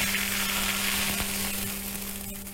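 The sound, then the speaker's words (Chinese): Loud, continuous crackling sizzle as hot rapeseed oil infused with red Sichuan peppercorns is poured over a dish of kidney pieces topped with chopped chives. The hiss stays dense and steady, easing slightly toward the end. “然后我们重新烧热100克菜籽油，油温8成热之后加入适量的红花椒，然后泼在上面即可。”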